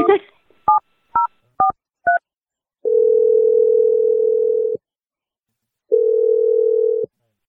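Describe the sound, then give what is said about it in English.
A phone call is dialed: a few short, crisp keypad beeps at varying pitches come in quick succession, then two long, steady tones of equal pitch sound with a pause between them. “We're just going to dial Jack and see what he has to say.”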